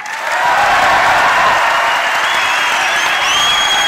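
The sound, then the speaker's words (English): An audience gives dense, sustained applause mixed with cheering as former Manchester United captain Roy Keane is welcomed onto a stage, the clapping loud and continuous throughout. “The former Manchester United captain received a rapturous welcome as RTE Sports' Hugh Cahill welcomed the Cork legend to the stage.”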